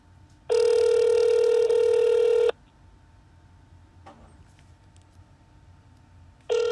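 A telephone rings before the call goes to voicemail: a loud, steady ringback tone lasts about two seconds, followed by quiet line hiss with a faint click. A second ring starts at the very end.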